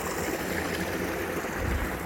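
Water flows down a small waterfall and lands in white foam, making a steady, full rushing hiss with a low churning rumble underneath, continuous and unbroken throughout.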